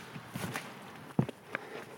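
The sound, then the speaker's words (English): Faint footsteps walking along a village street in Monknash on the Glamorgan coast: a few soft, irregular steps over a low background hiss. “Walking along Water Street. And now right towards the centre of Monknash.”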